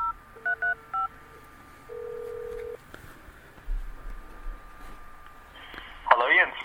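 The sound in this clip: Telephone touch-tone dialing as a call is placed, a few quick keypad beeps followed by a longer steady tone, then quieter line hiss and a short burst of noise at the end.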